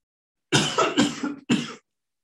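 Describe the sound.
A person coughs in a quick run of several harsh, loud bursts that come close together, with the last one after a brief pause. No talk accompanies them.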